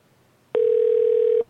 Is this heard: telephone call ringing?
yes